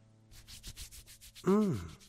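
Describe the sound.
Brisk rubbing of skin to warm up, a rapid, even series of soft, scratchy strokes, followed by a short, louder voiced hum.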